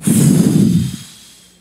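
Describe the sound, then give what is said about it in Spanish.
A big, deep breath, breathing hard: one loud, rough rush of air lasting about a second, then trailing off quietly. “Coge un buche grande de aire, y dice respirar fuerte.”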